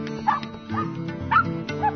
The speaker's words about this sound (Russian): остановлен был лаем щенка, судорожно бившегося в цепких когтях коршуна